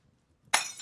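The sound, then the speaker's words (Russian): A wine glass is crushed in a hand. After near silence comes a single sharp crack and shatter, followed by a brief, bright tinkle of breaking glass. “Он раздавил в руке бокал.”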